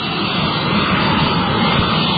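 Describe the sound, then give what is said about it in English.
A jet aircraft flies over with a loud, dense roar that holds steady and unbroken across the short span. “That's the sound of a jet.”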